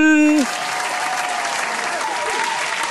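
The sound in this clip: Audience applause for a band leader at a live music event, a dense, steady wash of clapping with some cheering that takes over right after an announcer's drawn-out shout ends.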